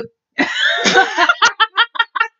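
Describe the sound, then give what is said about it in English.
A burp after drinking apple juice, a rough, voiced belch that runs for about a second, followed by a string of short, rhythmic bursts of laughter. “I burped. I told you. The apple juice is making me burpy.”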